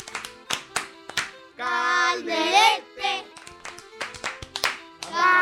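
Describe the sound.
Audience applause for a girls' youth team: many sharp claps in a quick rhythm, broken up by loud sustained voices chanting and shouting together between the claps.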